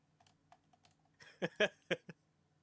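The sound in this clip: Keys clatter on a computer keyboard as someone types a Google image search: a few faint, scattered taps, then a quick cluster of louder keystrokes that stops abruptly.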